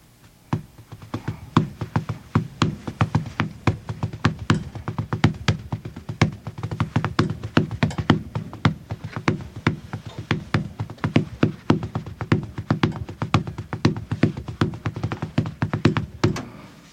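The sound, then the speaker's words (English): Many sharp hand taps beating out tambourine rhythms on a hard surface. The taps form a brisk, steady, repeating pattern of quick knocks that runs throughout, alone without talk. “Can you, like, tap out some of the beats that you used on the tambourine? Let me see.”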